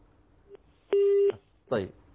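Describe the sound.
A telephone busy tone after a call is cut off: a faint short blip, then one steady mid-pitched beep lasting under half a second, followed by a brief voice-like burst.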